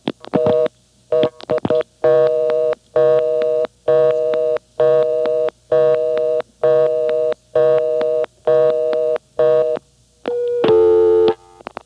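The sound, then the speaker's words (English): Telephone reorder tone after extra digits are dialed: a few dial-pulse clicks open, then a steady, evenly spaced on-off tone repeats many times, loud and alone, ending in a different longer tone. “Now, if I dial 2 more digits, the first one will be pulse repeated, which will do nothing. The second one will be stored, and it'll put on a reorder. So I'll dial 2 more digits now.”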